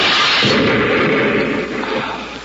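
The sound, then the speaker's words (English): A hand grenade explodes in a radio drama: a loud, broad blast that holds as a dense roar, then eases and thins toward the end, with no voices. “Just one more string inside to pull... Hey, it's a firing pin of a grenade. Give me that. Look out!”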